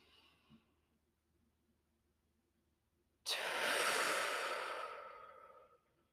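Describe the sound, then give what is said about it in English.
A deep breath in through the nose and out through the mouth: a faint, soft intake, then a long, loud, airy exhale of about two and a half seconds that gradually tapers off; no talking. “take a deep, easy breath in and out with me. So inhaling through nose, exhaling through your mouth.”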